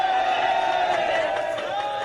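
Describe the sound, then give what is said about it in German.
Crowd cheering and jubilation at news that the youth footballers missing in Thailand's Tham Luang cave were found alive. A loud, sustained roar of cheering with whoops and shouts holds steady throughout. “Der Jubel war so groß wie die Erleichterung.”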